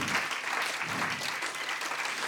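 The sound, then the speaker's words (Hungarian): Audience applause at a literary award ceremony as a novel's absent author is honored with a prize, a steady, dense patter of many hands clapping together, even in loudness across the whole span. “akkor egy tapsot hagyj kérek a szerzőnek, aki nincs.”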